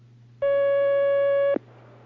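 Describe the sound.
A single steady telephone tone sounds as a call connects on a phone-in line, holding one pitch for about a second before cutting off, over a faint low hum.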